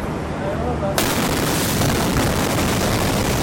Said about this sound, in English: today, we're seeing more heart-stopping videos out of Beirut, including this wedding day horror as the blast goes off right in the middle of a ceremony